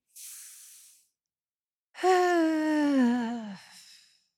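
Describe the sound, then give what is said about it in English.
Deep breathing in and out during a guided breathing exercise: a short airy inhale, a brief pause, then a long voiced sighing exhale that falls in pitch and trails off into breath. “And your third breath, breathe in again deeply.”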